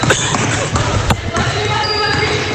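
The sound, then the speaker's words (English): A basketball is dribbled on the court during a women's game, a few sharp bounce thuds rising over a loud, steady background with voices. “She'll dribble out to the top of the key. She'll dribble in”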